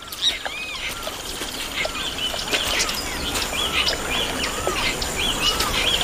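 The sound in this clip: Wattled jacana chicks and their father call while walking across dense floating water plants. Many short, high chirps repeat in quick succession over a steady hiss.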